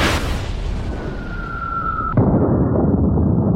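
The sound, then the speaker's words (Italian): A falling bomb's thin, steady whistle during a German air raid on Liverpool cuts off abruptly into a single heavy explosion. A deep rumble lingers over constant background noise. “Quelle che sentite sono le bombe dell'aviazione tedesca, la temibilissima Luftwaffe.”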